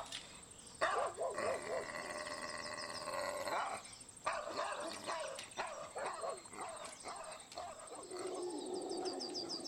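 A large mastiff-type dog barks furiously, with repeated sharp, loud barks at intervals over a steady background hiss.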